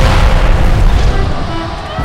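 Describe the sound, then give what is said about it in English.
A shipyard stocked with arms and gunpowder explodes in a loud, deep boom that keeps roaring and rumbling, then eases slightly toward the end. “Thomas Thornberry had been stockpiling arms and powder for months. And there was enough ordnance in the warehouses to outfit an entire division for a long campaign. Then the shipyard went up.”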